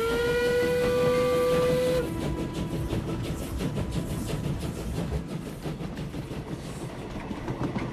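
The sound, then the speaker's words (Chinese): A steam train whistle sounds while the train heads toward Hangzhou: a loud, sustained multi-toned blast of about two seconds, then the train's heavy, rhythmic rolling and hissing noise continues steadily. “这个列车怎么还没有到杭州嘞？”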